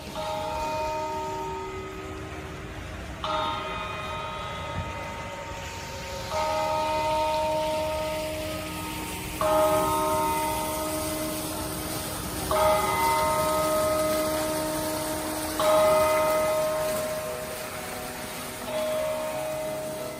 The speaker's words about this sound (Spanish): Sonido del ensayo de las campanadas de anoche, un ensayo sin gente